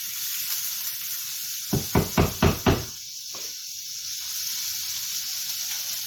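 Cut-up pork frying in margarine in a pan for fried rice: a steady high sizzling hiss runs throughout, broken midway by a quick run of a few knocks.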